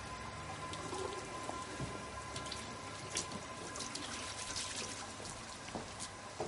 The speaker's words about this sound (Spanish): En los servicios sale de un retrete y se lava las manos en el lavabo.